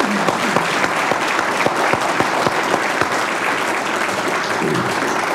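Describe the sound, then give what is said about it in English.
An audience applauds a commissioner who is a U.S. Senate candidate at an interview event. The clapping is dense, even and sustained from start to finish. “All right, well, let's give Commissioner Williams a hand.”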